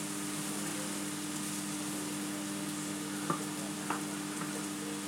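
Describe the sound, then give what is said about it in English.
A large amount of food sizzles and fries in a pan, a steady, even crackling hiss throughout with a couple of brief sharp clicks late on. “it's a lot to cook in this pan, really.”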